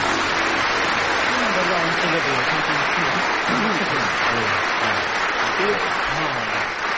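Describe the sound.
A studio audience at the Commonwealth Institute in London applauds to welcome the panel of a musical-knowledge radio quiz. The dense, steady applause lasts throughout while a voice speaks over it.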